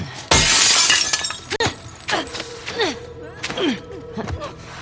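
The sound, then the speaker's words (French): A glass wall is smashed in a video game. One loud, sharp crash bursts out, then several bright shards tinkle and clatter down in quick, scattered bursts. “la vermine restante semble être derrière une paroi vitrée, donc je vais la casser pour essayer de la rejoindre.”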